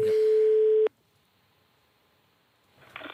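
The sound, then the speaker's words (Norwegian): A telephone ringback tone on a call to Japan: one steady, mid-pitched electronic tone lasting under a second, then near silence, with a faint burst of noise at the very end. “vi skulle ha ringt til Japan. Ja. Det må vi nesten få gjort.”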